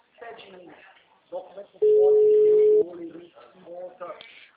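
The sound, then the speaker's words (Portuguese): A steady, mid-pitched telephone tone sounds after a dropped call, holding level for about one second between stretches of talk from people on the line. “acho que a nossa ligação caiu.”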